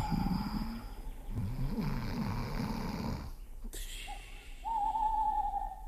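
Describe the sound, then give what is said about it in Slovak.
An owl hoots: low, wavering snore-like rumbles give way to a clear, sustained whistling hoot near the end, over a faint steady hiss. “No a to iba sova húka.”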